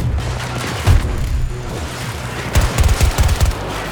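A grenade explosion and gunfire in a combat video game: a heavy boom early on, then a cluster of sharp, rapid gunshot cracks and thuds over a steady rumbling backdrop.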